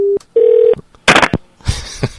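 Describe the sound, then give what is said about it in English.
A telephone handset is picked up and slammed down: two short steady tones, then two loud clattering bangs in quick succession. “she's just picking up and slamming down the phone”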